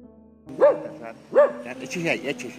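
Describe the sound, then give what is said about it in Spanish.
Dog barking, a man's faithful companion of seven years: a few short, sharp barks in quick succession, the last blending with talking. “su perro fiel lo acompaña desde hace 7 años”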